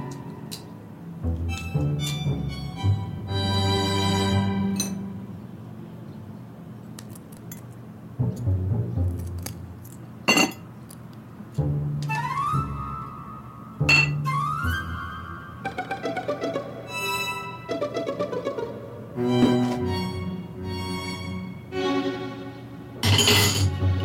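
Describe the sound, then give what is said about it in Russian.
A spoon clinks, taps and scrapes against an egg as a woman clumsily peels it. Many sharp, bright clicks come in an uneven run alongside a few ringing, glassy tones, with no voices. “Девушка, глядя на это, чистит яйцо ложкой.”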